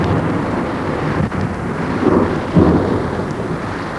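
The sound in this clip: A night thunderstorm: low, rolling thunder over a steady hiss of rain, with deeper rumbles swelling about halfway through and again shortly after.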